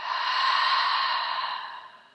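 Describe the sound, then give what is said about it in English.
A deep breath taken in and out, a soft, airy rush of air that swells and then slowly fades, heard alone. “take a nice deep breath in and out.”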